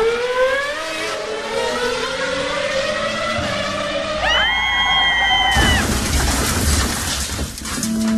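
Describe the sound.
A scooter engine revs as the throttle is opened, its whine climbing steadily in pitch for several seconds, then a sustained high tone and a loud burst of broad, rough noise.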